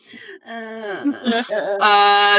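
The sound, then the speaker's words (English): A voice imitates the flat, droning moans of the cartoon character Tina Belcher: a few drawn-out, wavering groans over about two seconds, ending in a louder sustained moan. “Here's some Tina Belcher noises.”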